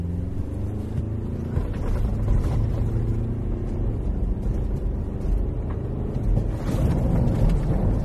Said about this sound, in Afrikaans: Ek het hom op 'n grondpad gery. Hier is 'n voluit wegtrek en stop.